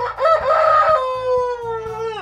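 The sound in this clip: A rooster crows once in a long, loud, drawn-out call lasting about two seconds, its pitch holding steady before dropping sharply at the end, over a low, steady background.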